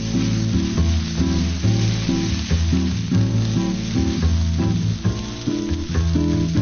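Meat sizzles in a hot pan, searing before being flipped, with a loud and continuous hiss and crackle under music.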